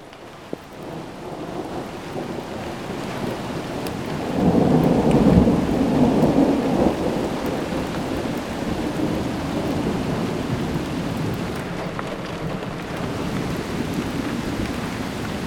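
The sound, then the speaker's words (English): Thunder rumbles through steady rain during a thunderstorm. A deep, loud roll swells midway and then fades back into the continuous hiss of rain falling on surfaces, with no voices. “That was lightning. Thunder.”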